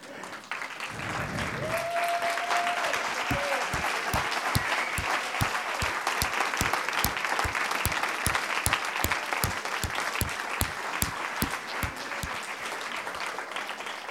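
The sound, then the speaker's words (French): A church audience stands and applauds, its steady crowd applause carrying a loud, even, rhythmic beat of unison claps throughout. “Et moi, j'aimerais qu'on se lève et qu'on acclame le Seigneur.”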